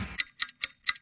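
A clock ticking with four crisp, bright ticks at an even, steady rhythm, heard alone with no voices.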